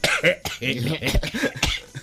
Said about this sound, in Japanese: むせてしまいました。